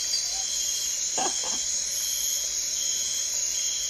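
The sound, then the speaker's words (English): Crickets chirping in a large chorus, forming a steady, high-pitched drone that holds evenly throughout, with no talking. “Like 8,000 crickets and that bird.”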